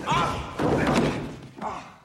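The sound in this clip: A door slams in a comedic scene as someone stumbles through a trap: a couple of heavy, dull thuds in quick succession, then a shorter knock, mixed with voices crying out.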